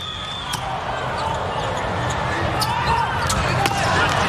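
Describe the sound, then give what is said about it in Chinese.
A volleyball is struck during an international men's match involving Poland's team, a few sharp, brief slaps cutting through steady crowd noise with a commentator talking over it. “阿弗里尔的发球，”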